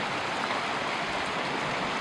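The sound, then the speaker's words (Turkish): Floodwater from a dam that overflowed after a downpour rushes through a neighbourhood. It makes a steady, dense, hissing wash of water at an even loudness throughout, with no voices. “Sağanak nedeniyle baraj taştı. Taşan su mahalleyi bastı.”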